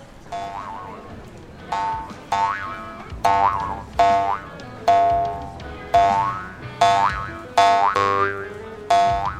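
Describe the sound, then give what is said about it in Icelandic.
Cartoon spring boings from a comic bouncing spring, repeating in a long, steady series of bright, twangy bounces with a wobbling pitch, loud and alone with no talk. “Nú getur hún skoppað út um allt á ferðagorminum sínum”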